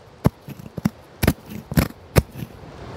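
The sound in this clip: Branches being trimmed from a sick, knotted maple tree in a front yard on a cold late-winter day: many sharp, irregular snipping and cracking clicks of moderate loudness, with no voices.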